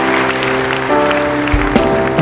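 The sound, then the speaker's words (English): A church audience claps together as a clap offering, steady applause over sustained keyboard tones. “And if that's your desire, let's just seal that with a clap offering and say, Lord, we give our hearts to you.”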